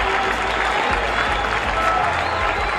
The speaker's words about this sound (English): It all started 17 years ago when he struck out Dick Groat in 1965. Listen to the crowd.